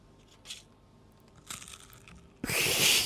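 Crinkling and tearing of a chocolate wrapper being opened close to the microphone, the chocolates sprinkled with vermicelli. A faint brief rustle comes first, then a longer crackle, then a loud sustained tearing crinkle that runs to the end.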